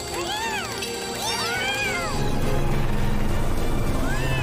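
Several cats meowing in a video game: a few high, wavering meows overlap in the first two seconds, then a steady low background drone takes over, with one more meow near the end.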